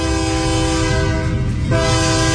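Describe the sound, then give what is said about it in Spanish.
Train horn blaring loudly as a train passes, a sustained multi-tone chord over steady rail rumble, with a brief dip partway through before the horn swells back at full strength. “Deja que suene el tren, señor Octavio Pérez.”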